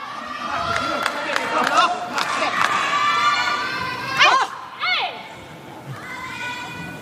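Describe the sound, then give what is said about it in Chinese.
Spectators at a badminton match cheer on Liu Shengshu and Tan Ning, a loud, sustained crowd roar punctuated by strong shouted calls, with voices talking over the noise. “啊，也在给他们加油， 加油！现在整个气势是在刘胜书、谭宁这边。”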